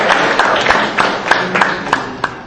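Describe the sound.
Applause from the audience at a quiz event as the group scores are announced. Many loud, uneven claps sound together in a steady, dense burst that keeps going for the whole stretch.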